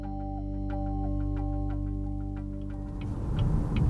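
A car drives through northwestern Florida, giving a steady low engine and road drone with evenly spaced light ticking on top. The rumble grows louder and rougher toward the end.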